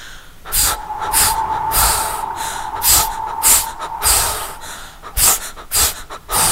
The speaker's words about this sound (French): Elle lui demande de l'aider à faire la cuisine, de souffler sur les braises parce que ce n'est pas assez chaud.